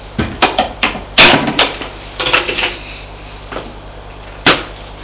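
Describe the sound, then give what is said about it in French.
A cupboard door is opened in a home, giving a quick series of sharp wooden knocks, clicks and light clatters. Separate bursts cluster densely at first, then become sparser, with one last crisp knock near the end and no voices. “Là, dans le placard, la mère va ouvrir le placard.”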